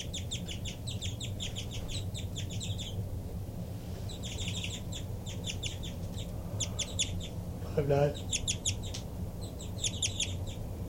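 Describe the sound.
Rapid, high-pitched flight calls from a bird answering another bird's calls, delivered in several quick bursts of sharp chirps separated by short pauses, over a steady low background hum.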